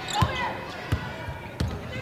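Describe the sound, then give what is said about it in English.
A basketball is dribbled on the court during a Texas Tech game, giving a few evenly spaced, low thuds beneath a commentator's continuous talk. “Comes left on the dribble.”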